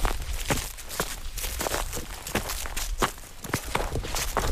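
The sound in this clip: Footsteps of hikers climbing a mountain toward the summit, a long, steady run of many rhythmic steps at an even walking pace, moderately loud with no talk.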